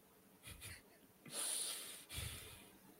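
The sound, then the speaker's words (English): A person exhales hard and forcefully, not through the nose, producing a few breathy, wheezing puffs; the middle breath is the longest and loudest. “So you breathe out. But harder. Just ain't through your nose.”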